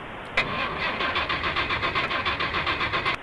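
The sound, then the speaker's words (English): A gas generator, gummed up, starts with a sharp burst and then settles into a loud, rapid, steady chugging, its even pulses continuing to the end. “I have my generator here. Am I allowed to start that? No worries. You can call me after 5-10 minutes. That should be fine. Right, it's just gonna fill the room with like a lot of like. It's a gas generator.”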